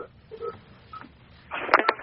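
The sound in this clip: Touch-tone dialing of a phone number to connect a caller to a radio call-in program: a few faint, short beeps spaced apart, followed by a louder, busier burst of electronic tones.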